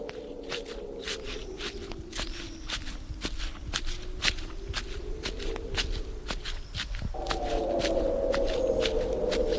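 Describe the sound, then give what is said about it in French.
Footsteps of a man walking alone, in a steady, regular rhythm of many fairly quiet steps. A low, wavering drone sits beneath them, and the background grows a little louder toward the end. “Il marche droit devant lui, seul, sans régiment, la tête vide.”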